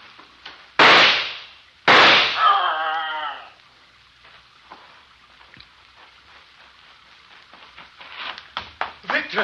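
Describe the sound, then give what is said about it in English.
Two sharp, loud gunshot blasts, fired at an animal, crack out close together near the start, each with a short ringing decay, followed by quieter rustling and faint activity that grows busier toward the end. “Victor! Did you shoot it? I'm not sure. I might have hit it.”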